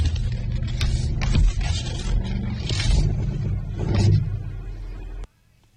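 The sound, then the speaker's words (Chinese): A car steering wheel makes noise as it is turned, giving a grinding, scraping mechanical drone with a few louder swells before it cuts off sharply near the end. “我这方向盘转的时候会响”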